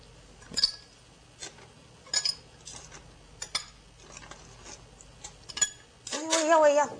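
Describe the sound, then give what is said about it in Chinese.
Ice cubes drop into a glass of juice, giving several bright, separate clinks at uneven intervals against a quiet background, followed by a louder, fuller burst of sound at the end. “首先要 加个冰块。”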